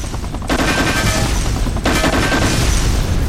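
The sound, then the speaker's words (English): In a video game, loud automatic gunfire shoots down incoming rockets. The rapid bursts are dense and continuous, broken by a brief lull before the firing resumes. “Getting a little too close there. So I'm using Alt to shoot the rockets down.”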